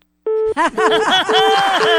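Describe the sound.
Telephone busy tone after a call is hung up: four steady, evenly spaced mid-pitched beeps, each about a quarter second long, with a voice or soft laughter running over them.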